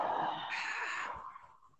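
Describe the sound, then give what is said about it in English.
A long breath blown out through the mouth during a guided breathing exercise: one steady, breathy hiss that holds for over a second, then thins and fades toward the end. “Let's take a big breath in. And blow out through your mouth as far as you can.”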